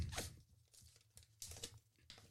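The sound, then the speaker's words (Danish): Paper rustling as a folded paper note is unwrapped during a prize draw, heard as a few short, crisp crinkling and tearing-like bursts separated by quiet gaps, with a sharper crackle at the very end. “Men der er 2 andre sedler, som jeg lige skal have, og jeg tager den ene her. Pakker op.”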